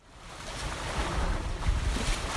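Water lapping along a city riverbank on the Thames: a continuous, fairly loud wash with gusts of wind, steady throughout and without voices.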